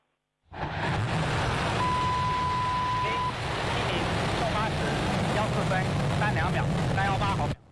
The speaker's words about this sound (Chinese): 8:14，长征七号遥十一运载火箭点火起飞，约十分钟后，天舟十号货运飞船与火箭成功分离并进入预定轨道。